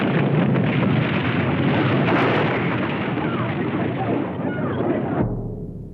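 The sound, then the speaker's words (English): Roaring, crashing destruction of a recreated earthquake levelling a city, the 1906 San Francisco quake staged for a Hollywood film. A dense, loud, sustained rumble with bursts of crashing for about five seconds, then it cuts off abruptly to a low hum. “April 18th, 1906, an earthquake shattered San Francisco. It was caused by a huge rupture in the fault line that runs below the city. A Hollywood film recreated that disaster.”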